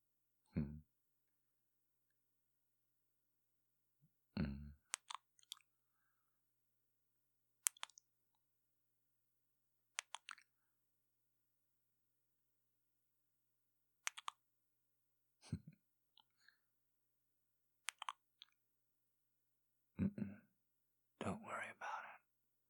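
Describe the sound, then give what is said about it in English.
Soft kissing sounds, wet lip smacks in short clusters separated by long quiet gaps, many in all, with faint whispered breath among them and a denser run near the end. “I'm going to pull you towards me just a little. Just a little. So that I can look you in the eyes. And then kiss you.”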